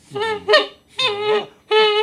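A goose honks loudly in three nasal, strongly harmonic bursts, the first a double call, each separated by a short silence.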